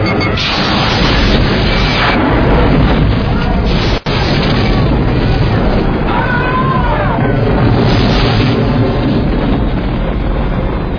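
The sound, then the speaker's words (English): Phaser fire and booming blasts in a starship battle, loud and dense throughout with one brief sharp cutoff near the middle. “Lock phasers on target. Locking phasers on target. They're locking phasers. Raise shields. Fire!”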